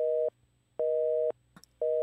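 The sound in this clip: After a mobile phone call is cut off, a busy tone sounds as three steady mid-pitched beeps separated by short silences, with the last beep cut short.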